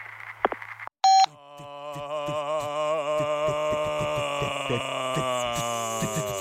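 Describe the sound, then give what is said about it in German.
A single short answering machine beep, a loud and sharp electronic tone, cuts in after a brief gap. Sustained tonal music with a steady pulse follows. “Bitte schweigen Sie nach dem Piep.”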